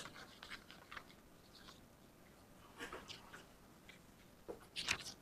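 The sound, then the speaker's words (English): Faint scratching as an equation is written out during a physics lecture: a few quiet, scattered strokes over a low, steady background hiss. “Actually, I guess I'll write it down.”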